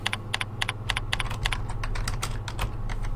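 Computer keyboard keys clatter as a page title is typed, a quick uneven run of many crisp, bright taps over a low steady hum.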